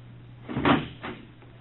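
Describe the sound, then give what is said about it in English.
A front door closing in a house: a quiet, muffled thud followed by a lighter second knock, both brief and soft. “What was that? The front door.”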